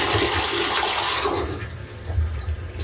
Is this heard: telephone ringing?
no